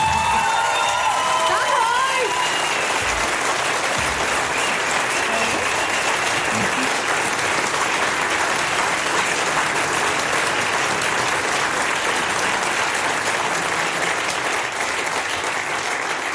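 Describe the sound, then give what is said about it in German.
Dense audience applause with some cheering at the SRF 3 Best Talent Showcase 2025, a live music event, sustained and even for the full length, with a voice briefly audible at the start. “Das ist nochmal dein Applaus. Danke sehr.”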